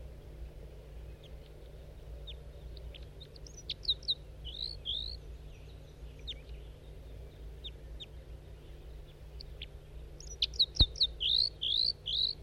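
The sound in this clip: A wild male bird calls from a pine tree with short, high, chirping notes. A few calls come early on, then a quicker run of chirps near the end, all over a steady low background hum.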